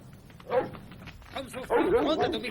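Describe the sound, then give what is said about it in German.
A dog near a camper van barking and yelping in bursts: a single short yip, then a longer run of excited, rapid barks, moderately loud over a low steady background. “Plötzlich springt ein Hund aus dem Campingwagen und läuft auf die Eiche zu, auf der Bohne hockt.”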